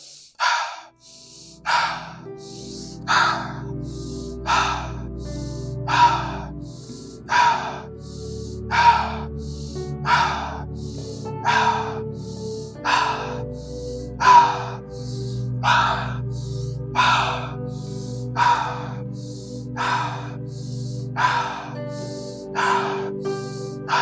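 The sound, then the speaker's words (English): Rhythmic breathing exercise with inhales through the nose and exhales through the mouth, part of a stress-reducing breathing session. Many evenly spaced, breathy whooshes repeat in a steady cycle, each breath rising and falling with no talk over it. “For the first stage of the breath, we'll be an inhale, nose, exhale, mouth for 30 breaths.”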